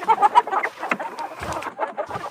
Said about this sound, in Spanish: lo que nos explicó Dora el otro día, cómo debe estar el corral de las gallinas